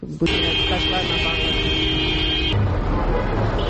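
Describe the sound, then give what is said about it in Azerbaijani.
Street traffic with a line of cars: one horn holds a steady, buzzing blast for about two seconds, then cuts off, leaving a continuous roadway rumble. “Küçə boyunca bir-birinin ardınca düzülən maşın kərvanı, aramsız siqnal səsləri”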